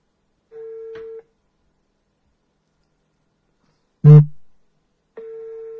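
Telephone tones as a call is placed: two steady, mid-pitched beeps about four seconds apart, with a single dull thump between them and silence around it.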